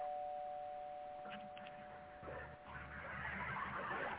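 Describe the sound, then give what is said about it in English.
A doorbell ringing: a faint, steady electronic tone held for about three seconds, then giving way to low rumbling noise. “Go ahead and get your doorbell.”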